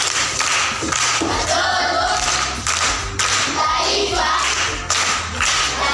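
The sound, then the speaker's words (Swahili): Applause for a young primary-school pupil's correct answer, a steady patter of many hands clapping with a few heavier thumps mixed in throughout. “Makofi kwa mjomba.”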